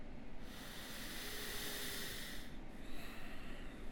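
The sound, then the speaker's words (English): Slow, faint breathing during a guided self-help exercise: a long, airy breath of about two seconds fades, then after a brief pause another soft breath begins. No voices are heard. “And then breathe.”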